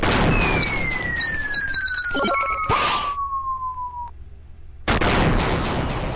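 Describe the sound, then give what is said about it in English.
A boss robot blowing up after the first boss fight in the Gunstar Heroes game: dense crackling explosion noise under a long, steadily falling electronic whistle and chirpy high tones, then a short lull before a loud burst of noise resumes. “after defeating the first boss, it blows up and it kind of slows down. You get the results screen, and then the results screen goes away, and the blowing up resumes, and then this happens.”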